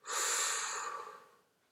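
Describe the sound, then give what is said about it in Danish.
One slow, deep inhalation through the nose as part of guided breathing, a soft airy rush that rises quickly, holds steady, then fades gently over under two seconds with no talking. “Tag nogle dybe, langsomme indåndinger og lyt til min stemme. Langsomt ind.”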